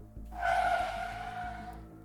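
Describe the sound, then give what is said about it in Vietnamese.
A car brakes hard with a harsh tire squeal: one sustained screech that starts abruptly, holds steady for over a second and then fades, with no voices. “Chiếc xe thắng gấp lại, cả hai như muốn ngã nhào về phía trước.”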